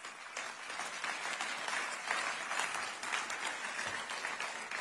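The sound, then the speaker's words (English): Subdued, unenthusiastic applause rises from an audience at a political speech calling for harsh drug penalties. It is a steady, faint wash of clapping throughout, with no voices standing out. “at least the applause seemed kind of reluctant and unenthusiastic there.”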